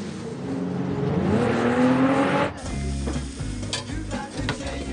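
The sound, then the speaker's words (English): A car screeches away with tires spinning and smoking: a loud rush of noise with a rising engine whine that cuts off abruptly partway through. “Vince screeches away in his car, kicking up a cloud of white smoke from his wheels.”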